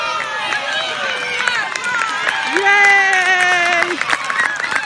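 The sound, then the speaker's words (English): A crowd cheers and shouts at a short 12-yard dash run on a grass field with painted white lines, a loud, steady hubbub of raised voices and some clapping throughout. “Wow, whoever's taking this video started it halfway through the race, I think. Actually, maybe it only takes 12 seconds to run the race.”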